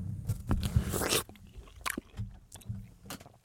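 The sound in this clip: A peach is bitten and chewed, with a few wet, crisp bites followed by softer squelching chews, close and fairly quiet, with no talk.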